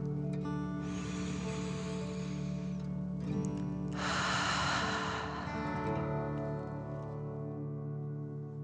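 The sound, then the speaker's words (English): A slow, deep breath in and then out during a guided meditation, two long airy rushes of several seconds each, set over a steady, sustained musical drone. “let's take another deep dragon breath in and out”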